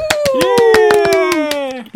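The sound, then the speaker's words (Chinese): About a dozen rhythmic hand claps welcoming listeners to a radio show, fast and evenly spaced, over a drawn-out vocal tone that slowly sinks in pitch. “欢迎收听今天的杜亚擂台， 掌声鼓励鼓励。”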